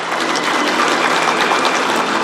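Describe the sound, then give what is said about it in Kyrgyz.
Warm applause greets Xi Jinping and Vladimir Putin as they enter the hall together at Beijing's Great Hall of the People for the opening ceremony of a China–Russia cultural year. The clapping is steady and dense, with no break. “Эки мамлекет башчылары кызуу кол чабууларынын коштоосунда майданга чогуу кирди.”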